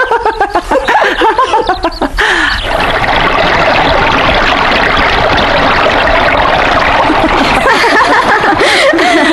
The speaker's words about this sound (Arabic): وهلم بنا إلى النهر لنبترد قبل أن يأتي رجال. هيا